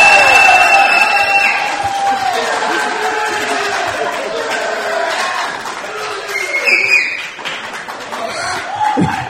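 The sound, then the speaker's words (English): Crowd cheering loudly for West Genesee lacrosse, a dense, sustained roar of yelling voices that stays strong throughout and eases slightly near the end. “So we're going to do two different cheers. Show me how loud you can be for West Genesee lacrosse.”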